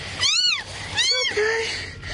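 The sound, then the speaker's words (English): A kitten meows after being rescued from the debris of a tornado-destroyed trailer park. Two high, drawn-out meows are followed by a softer tonal call over steady background noise. “And just incredible rescue video there from a storm chaser. He found a kitten under the debris that destroyed the trailer park that we just showed you.”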